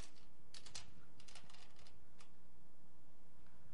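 Computer clicks: a few short, sharp clicking bursts in quick clusters, faint over a low background hiss.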